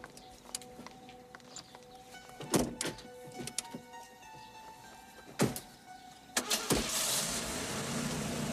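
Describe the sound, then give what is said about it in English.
Car doors thunk shut a few times, then a car's engine noise swells into a steady, loud rumble as the vehicle drives off. “The couple leave and drive away.”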